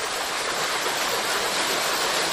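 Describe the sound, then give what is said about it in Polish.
Water flowing in the small mountain stream Liuta makes a steady, dense rushing hiss that stays even throughout with no voices. “Sporo wody upływa małą górską rzeczką Liuta”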